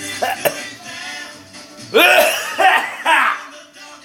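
A person coughs harshly after smoke went down the wrong pipe, with a few short coughs first, then a loud fit of several rasping, hacking coughs in quick succession.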